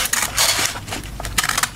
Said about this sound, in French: Dans ce cas-ci, c'est le ciseau qui coupe la feuille pour aller emballer le cadeau.